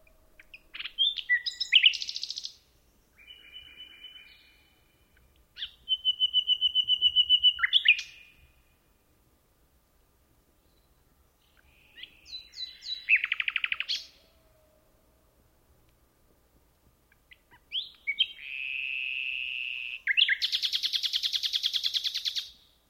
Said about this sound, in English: We leave you this week with a celebration of nightingales. Phil Riddett recorded this pair of Daulias luscinia nesting in a thicket of chestnut trees at Hemsted Forest in Kent, England.